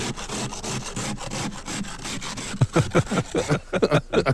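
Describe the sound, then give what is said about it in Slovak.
Frost is scraped off on a frozen morning with many rasping, rhythmic strokes. A steady grinding scrape gives way to sharper, louder, distinctly separated scrapes toward the end. “dobre zamrznuté ránko. Ja som dnes ráno škrapkala.”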